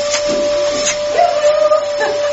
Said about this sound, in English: Right, well, I'll just hoover loudly.